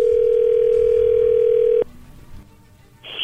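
A telephone line tone as a call connects: a loud, steady single-pitched tone holds for almost two seconds, then cuts off abruptly. Quieter line hiss follows, ending with a short, brighter burst of noise.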